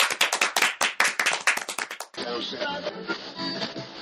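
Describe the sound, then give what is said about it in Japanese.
Sparse applause: a rapid run of sharp individual hand claps, then a thinner, softer ripple of clapping from a few hands. “なんか寂しい、 さざ波のような拍手がね、 ね、拍手って言うのかしら”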